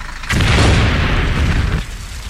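A grenade explodes and destroys a truck: a sudden loud boom swells into a roaring rumble lasting about a second and a half, then cuts off into quiet.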